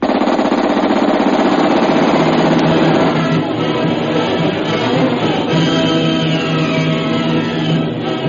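Rapid gunfire in an old radio adventure drama as men open fire, a loud, dense, continuous burst of overlapping shots that fills the whole clip and eases slightly after the first few seconds.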